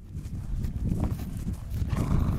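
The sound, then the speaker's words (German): A horse trotting over a meadow, its hooves landing as dull, soft, steady thuds. “fordert den Schüler auf, ein paar Mal über die Wiese zu traben.”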